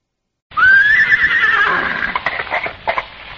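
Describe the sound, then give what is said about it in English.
A pony pulling a trap lets out a loud, high whinny that wavers for over a second, followed by a few sharp clopping hoofbeats as the neigh fades. “what on earth are you doing with the pony and trap?”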